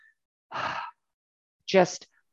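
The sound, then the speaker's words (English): A deep breath taken as a calming, grounding exercise: a breathy inhale followed by a voiced, sighing exhale. The two distinct breath sounds are moderately loud and separated by a pause, with no talk. “you can even hear it, right? It's just, you take that deep breath and it just kind of centers you.”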